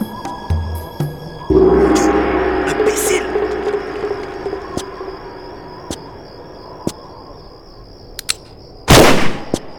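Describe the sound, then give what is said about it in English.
Gunfire from a cowboy firing repeatedly: several sharp, widely spaced cracks and a louder blast near the end, with voices speaking in between. “What? Idiot! Idiot! What does the cowboy hope to achieve with this mindless firing?”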